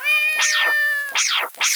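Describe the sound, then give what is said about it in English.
A cat meowing while being thrown: three loud, drawn-out meows, each arching up and then down in pitch, over a steady tonal background. “Grab a cat and start chucking! I can't take you anywhere. Less talk, more tabby tossing.”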